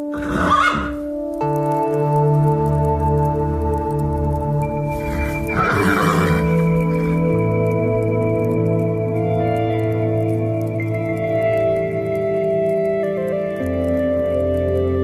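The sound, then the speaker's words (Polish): Horse neighing from one of four horses kept at a Polish border guard post in Ustrzyki Górne, with two loud whinnies, one at the start and one midway, over a steady sustained musical drone. “Mamy 4 konie.”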